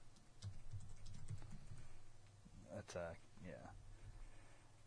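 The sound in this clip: Rapid typing on a computer keyboard, a run of many light, uneven clicks, with a voice briefly speaking over the later part.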